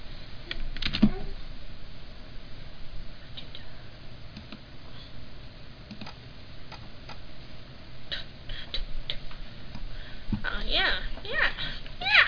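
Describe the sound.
Typing on a computer keyboard: steady, irregular clicking keystrokes run through the whole stretch, with denser, louder bursts of taps toward the end.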